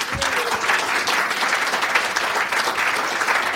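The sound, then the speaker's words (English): An audience applauds to welcome a journalist and author as speaker: continuous, dense clapping from many people at an even, lively level throughout. “And so would you welcome journalist, author, broadcaster, Safraz Mansour.”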